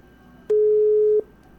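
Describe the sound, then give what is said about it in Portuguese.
Telephone tone on a call with no line: one steady, pure mid-pitched beep of under a second over a faint background hiss. “Tô ligando aqui pro prefeito Adelcino. Né? Onde ele tá. Onde ele tá não tem linha, né?”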